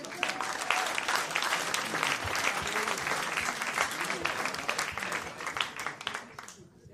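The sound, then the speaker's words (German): Audience applause: a crowd claps steadily and densely throughout, with scattered sharper claps, and the sound tapers off near the end. “Dann ist das dein Applaus, bitteschön.”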